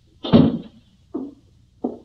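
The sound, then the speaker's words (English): A door being closed gives a heavy, dull thud, followed by two shorter, softer knocks with quiet gaps between them. “Should I close the door? Yes, please.”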